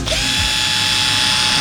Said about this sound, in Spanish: No, es una herramienta que utilizamos montones. Es un taladro